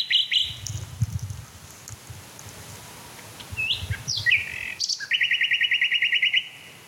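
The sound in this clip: A male songbird sings a few short, high chirps followed by a rapid, buzzy trill near the end, with faint low rustling beneath the quieter opening.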